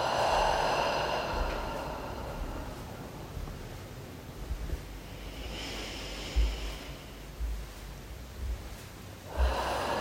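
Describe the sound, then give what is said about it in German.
Slow, deep breaths in and out during a guided relaxation exercise, with a few long airy swells of breath separated by quieter pauses. No voices are heard. “tief einatmen. Und loslassen.”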